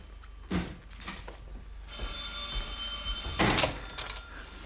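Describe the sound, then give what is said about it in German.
A telephone bell rings in a radio drama, a bright, sustained metallic ringing that begins partway through and carries on to the end, with a few dull knocks around it. “Bei Ihnen geht das Telefon. Ja, ich hab's gehört.”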